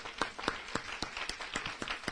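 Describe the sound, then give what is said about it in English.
Congregation clapping hands in a steady rhythm during a church worship service, with sharp, regular claps roughly every quarter second over a soft crowd murmur and no clear talk. “Come on, we can take our hand claps up a little higher.”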